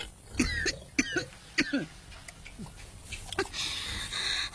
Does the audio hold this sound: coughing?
yes